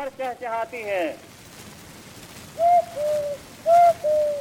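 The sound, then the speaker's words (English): A person whistles in imitation of birds on an old early-20th-century record. After a short warbling phrase come four clear, mid-pitched whistled notes in two pairs over steady hiss. “In particular, there was a genre of people whistling in imitation of birds.”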